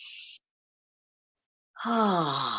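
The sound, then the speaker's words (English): Deep breaths in and out during a guided breathing exercise: a short airy breath, a long pause, then a loud, drawn-out breath with a voiced, sighing edge. “Okay, let's close our eyes. Let's take 3 deep breaths.”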